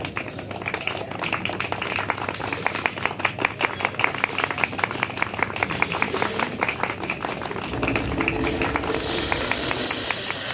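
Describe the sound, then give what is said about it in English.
Audience applause at an open mic poetry night, dense steady clapping with many quick overlapping claps sustained for about ten seconds. “Please give him a big hand.”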